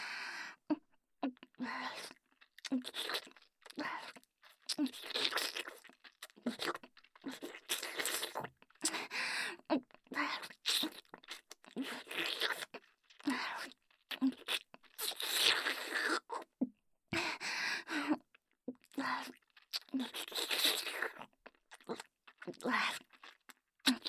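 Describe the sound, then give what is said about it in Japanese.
Wet slurping and sucking mouth sounds come in many short bursts separated by brief pauses. The noises are soft and moist, with crackly, smacking textures. “まだ中に結構残ってます。全部すすってあげますね。”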